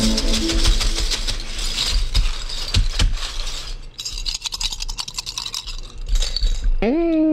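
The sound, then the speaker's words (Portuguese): Bottle caps rattle, clink and scrape as they are shaken and tossed for fortune telling, a busy stream of small clicks over a steady tonal background. “joga as tampinhas para mim.”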